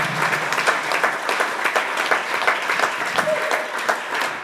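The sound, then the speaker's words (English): An audience claps during a Sunday church service: many hands beat a steady, fairly regular rhythm of sharp claps over a continuous background of clapping, loud and unbroken throughout. “Are you clapping or what are you trying to do?”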